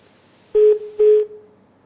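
Telephone keypad dialing tones as a dropped call is being reconnected: two short, steady electronic beeps, the second slightly longer, followed by a fading tail, with no voices.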